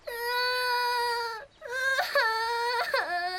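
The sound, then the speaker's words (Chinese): A child crying alone by the seaside lets out two long, wavering wails separated by a brief pause; the second wail breaks into sobbing catches and pitch wobbles. “怎么又哭了？别哭了。”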